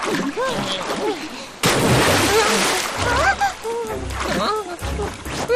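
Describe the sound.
Paddles churn and splash sea water as a raft is rowed, with a loud rushing splash midway and voices talking over the constant sloshing.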